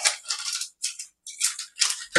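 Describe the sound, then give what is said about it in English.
Scissors cutting open a plastic chip bag: a few crisp, crinkling snips separated by short silent gaps, bright and close. “But we just put the scissors a little bit ways down on the pack. We open the blade and slide the pack inside. And then we cut.”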